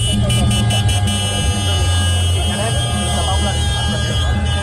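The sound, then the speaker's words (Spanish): Steady engine rumble from a slow protest march of farmers' tractors heading into central Barcelona, a continuous low drone with mechanical noise layered above and indistinct voices mixed in throughout. “Esta mañana los agricultores de toda la comunidad han llevado a cabo una marcha lenta de tractores hasta el centro de la capital de Barcelona.”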